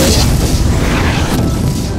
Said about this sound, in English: the rest dove toward their target and impacted on the vacant street